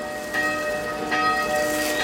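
A church bell rings with sustained metallic tones, each strike blooming into a bright, lingering hum at a slow, steady pace, with a soft patter of rain beneath and no talk.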